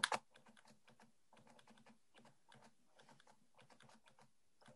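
Typing on keys of a small device that feeds out a paper strip: a louder knock, then many quick, light clicks in irregular bursts with short pauses, steady and fairly faint throughout.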